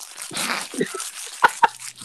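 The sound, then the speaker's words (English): A wrapper is crinkled to imitate someone eating a bag of chips, giving short crackly rustling bursts followed by two sharper, louder crunchy snaps near the end. “And then he had a bag of chips. Hold on, I got a wrap right here. He was all you would hear. This is all you would hear.”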